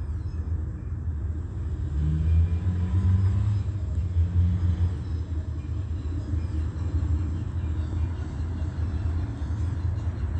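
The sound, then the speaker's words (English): A low, steady roar of an airliner flying directly overhead above a street while cars drive by, the rumble swelling slightly for a few seconds and then holding level and loud throughout. “That is as Southwest Airlines flies directly over the same street while they're driving by.”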